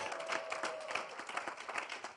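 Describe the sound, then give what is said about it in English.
Congregation clapping at a church service: a dense, steady patter of many hands that runs without a break through the short stretch. “Clap for the Lord Jesus.”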